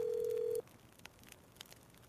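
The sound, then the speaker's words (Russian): Telephone ringback tone heard while calling someone: one steady, mid-pitched beep lasting just over half a second, then near silence with a few faint clicks. “Давай, Дэн, давай, бери трубочку.”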